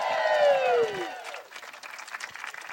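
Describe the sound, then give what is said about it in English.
Audience applause welcomes guests to the stage, opening with a loud falling shout over the crowd and then settling into steady, dense clapping that fades somewhat toward the end. “Could you please put your hands together? Welcome to the stage.”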